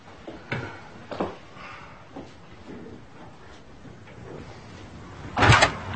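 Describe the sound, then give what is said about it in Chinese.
A door being closed, heard as one loud thud near the end after a quiet stretch with a few faint knocks. “请帮我把门关上吧。”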